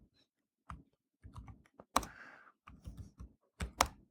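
Faint, irregular clatter of a computer keyboard as code is typed, with many quick key clicks in short bursts separated by brief pauses.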